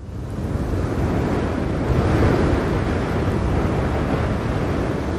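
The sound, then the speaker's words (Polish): Wind sweeping over the snowy, icy desert of Spitsbergen in northern Norway, a broad, steady roar that swells up within the first second and holds loud and even with slight gusty fluctuation, no voices. “W otoczeniu wiatru ze śnieżno-lodowej pustyni wystaje betonowa budowla.”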